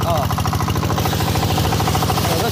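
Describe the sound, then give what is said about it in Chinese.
An engine-driven water pump chugs steadily as it draws seawater into a hose, giving a loud, continuous rhythmic thumping with a fast, even pulse and brief voices over it. “一切准备就绪，发动机启动后，抽水机将海水抽进水管，然后又在海里将泥沙冲洗干净。”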